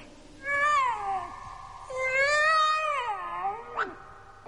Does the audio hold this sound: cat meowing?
yes